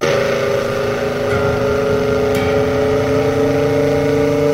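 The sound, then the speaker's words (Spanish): A 1969 Ford car engine running at a steady idle, a loud, continuous low drone with sustained humming overtones and no change in pace throughout. “su vehículo en este Ford 1969, que es el que sale en este video”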